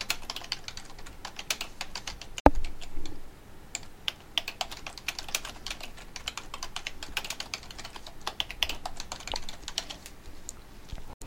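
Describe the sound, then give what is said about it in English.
Fast, continuous typing on a computer keyboard as a message is entered into a text box. Many quick, light key clicks run in a dense, uneven stream, with one sharper click near the start. “To do this, move your cursor to the text box, click on the left mouse button, and a blinking line should appear. At this point, you can type your message.”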